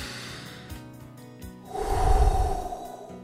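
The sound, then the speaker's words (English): A deep breath is drawn before a prayer: quiet at first, then a loud, low, airy whoosh that swells through the second half and slowly fades, with no talking. “let's take a deep breath and have a prayer”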